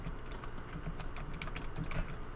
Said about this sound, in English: I'm typing up the description for the podcast episode that I'm uploading now, so you're just going to have to take over for a minute.